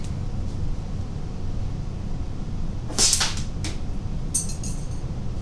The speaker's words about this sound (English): Now my air conditioner is firing up. You can probably hear it.